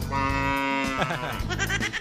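A cow moos in a corral, a long, low, droning call with rich harmonics, followed by shorter, wavering moos that rise and break toward the end.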